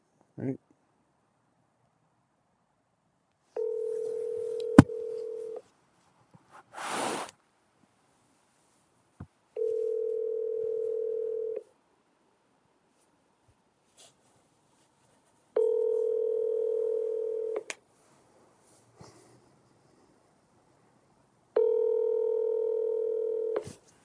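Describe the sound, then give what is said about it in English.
Ringback tone of an outgoing phone call placed through a voice assistant: four long, even tones, each about two seconds, separated by quiet gaps, with a few brief clicks and faint sounds between them. “So let me call him. Hey, Siri, call Cameron. Calling Cameron.”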